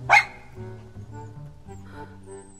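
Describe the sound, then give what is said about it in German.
A small, light-brown dog gives a single sharp, high bark at the start, followed by a quieter, low, steady tonal background. “2 Schritte von ihr entfernt sitzt ein putziger hellbrauner Hund auf den Hinterbeinen und hält die Vorderpfoten vor der Brust gekreuzt.”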